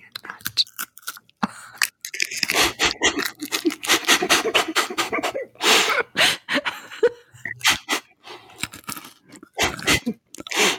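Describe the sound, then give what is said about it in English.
Loud crunching from food being eaten right at the microphone, with many rapid crisp bursts in clusters separated by brief pauses. “Okay, so people will literally crunch into the microphone. Maybe fast forward if you don't enjoy crunching in your ear.”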